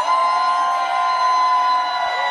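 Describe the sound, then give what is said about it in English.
Supporters cheer as Texas Democrats enter the House chamber in Austin, a dense, loud crowd roar that holds steady throughout, with no pause or lull. “It was loud yesterday as they entered the House chambers in Austin and supporters cheered them on.”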